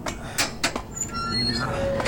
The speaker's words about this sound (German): Er stand auf, ging zur Tür und öffnete sie.